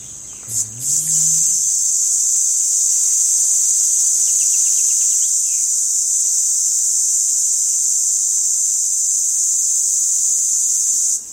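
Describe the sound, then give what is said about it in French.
Intense, continuous buzzing call of a male Tibicina haematodes cicada, a species of shrubs and trees. A loud, steady, high-pitched drone holds without a break for the whole clip, with a brief low sound at the very start. “Alors c'est pas la cigale la plus commune, la plus facile à trouver, elle est plutôt dans les arbustes, dans les arbres, mais elle fait un son assez intense.”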